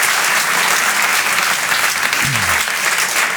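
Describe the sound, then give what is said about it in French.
Audience applause welcoming a performer onto the stage at a comedy evening: a dense, loud wash of many hands clapping that holds steady and unbroken for the whole few seconds. “Je vous demande de l'applaudir lui aussi très fort.”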